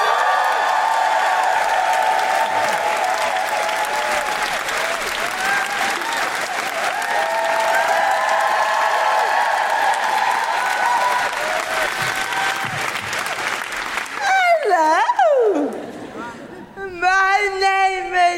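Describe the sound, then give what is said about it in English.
Audience applause and whooping for comedian Rosie Jones at a live comedy show: dense, sustained clapping with cheers for about fourteen seconds, then the ovation dies down as a voice begins speaking. “Put your hands together and make extraordinary woo-hooing noises for the wonderful Rosie Jones!”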